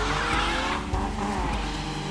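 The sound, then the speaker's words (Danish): Engine noise from a diesel Volkswagen Golf 2 with yellow plates and no back seat, a loud continuous roar that holds steady throughout. “Det er en Golf. En Golf 2. Gul plade, så er der ingen bagsæde, ikke? Så er det en diesel.”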